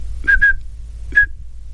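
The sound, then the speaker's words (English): A person whistles short, pure, high telephone dialing tone pulses, imitating the signal for area code 212: two quick pulses, a pause, then a single pulse. “you would send pulses of 2600 hertz that would sound something like this.”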